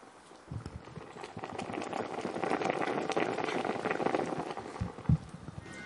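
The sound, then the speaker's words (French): Food simmers in a pot with a faint, continuous bubbling and soft popping, and one sharper pop stands out near the end. “C'est ça mijote, hein.”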